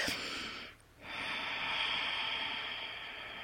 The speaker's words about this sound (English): Just taking a couple of breaths down into the hara below your belly, just to ground yourself.